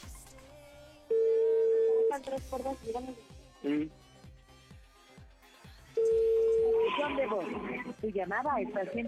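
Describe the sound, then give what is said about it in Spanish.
A phone call rings out unanswered, with two long, steady ringback tones several seconds apart. Music and talking play over the tones and between them. “le estoy marcando, ojalá conteste”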